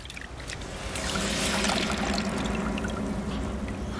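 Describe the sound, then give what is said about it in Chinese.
Water pours and splashes steadily as someone bathes on a cold day, a continuous, fairly loud wash of spattering sound with no pauses. “这大冷天你干什么呢？ 我洗个澡。”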